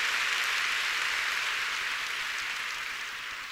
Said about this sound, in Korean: 여러분 옆에 있는 분들에게도 그렇게 좀 박수해 주십시오. 150周年おめでとうございますと拍手を送ります。